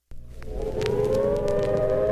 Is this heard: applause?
no